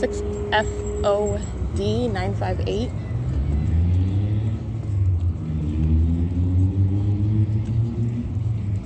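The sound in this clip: Engine rumble of a JB Hunt Intermodal truck driving southbound on Euclid Avenue, a steady low diesel drone with rising engine tones that follows a brief voice at the start.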